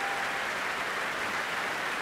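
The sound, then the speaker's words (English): A Proms concert audience applauds the chorus masters, forming a steady, even wash of clapping at a fairly faint level with no breaks. “And that cheer for the chorus masters who have marshalled their forces this”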